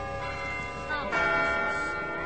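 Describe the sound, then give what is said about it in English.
Wedding church bells ringing in Hale, Maryland, a faint wash of overlapping chiming tones that swells slightly partway through and keeps sounding steadily to the end. “Wedding bells are ringing today in Hale, Maryland.”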